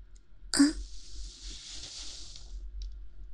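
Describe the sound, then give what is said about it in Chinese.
A single sharp cough, a short loud burst trailing off into a faint breathy hiss, heard alone without talk. “干嘛咳嗽啊？”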